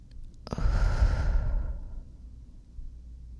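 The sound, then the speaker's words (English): A deep breath taken during a guided breathing exercise: one long, breathy exhalation that swells suddenly and then fades away over about two seconds, heard on its own. “picture the element of air as you take three deep breaths. I'll do it with you. Breathe in and out.”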